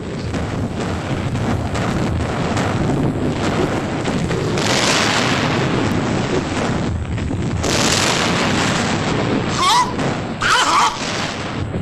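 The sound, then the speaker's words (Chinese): Artillery shelling a target: a dense, continuous roar of rumbling explosions and booms runs throughout, loud and unbroken, with sharper blasts rising out of the din now and then. “向四号目标开炮。 四号目标射击。”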